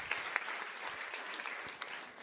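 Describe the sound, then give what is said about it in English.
An audience applauds at a speaking event, many hands clapping in a dense, even wash of moderate loudness that lasts without a break. “And just everybody give her a round of applause for emceeing this.”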